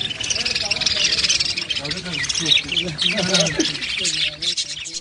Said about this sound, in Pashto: دا په جلال آباد کې د مرغانو د کوڅې په نامه ده.